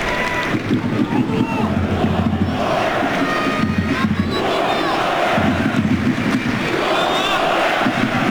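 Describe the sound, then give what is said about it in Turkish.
Football crowd at an Austria match: a broad stadium roar of many voices that swells and dips in repeated chant-like surges, staying loud throughout. “Alkışı da oluyor.”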